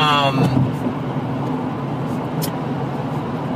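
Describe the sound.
Road traffic noise: a steady, low rumble of vehicles that continues throughout, with a voice briefly present at the start.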